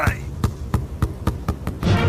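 A YPF-branded ball bounces six times, the sharp thuds coming faster as the bounces shorten, over a steady low background.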